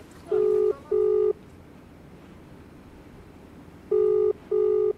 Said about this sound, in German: Zurück in Delhi, ein Anruf bei Avikal Somvashi.